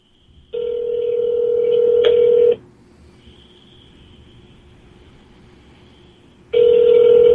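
Ringback tone of an outgoing telephone call ringing out: a steady, mid-pitched two-second ring, a pause of about four seconds, then the next ring beginning, heard alone.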